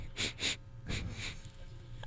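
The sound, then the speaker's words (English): A person sniffing sharply through the nose, four quick sniffs in two pairs, the later ones slightly softer, with nothing else heard. “You can hear me sniffing, though,”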